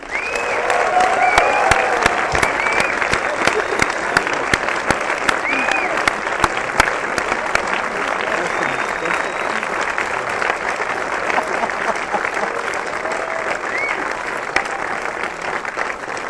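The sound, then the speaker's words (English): Sustained audience applause at a London show greets a visiting American duo, a dense wash of clapping lasting well over ten seconds, with a few high whoops popping out above it. “Please put your hands together and make some really big noise for Chris and Eric.”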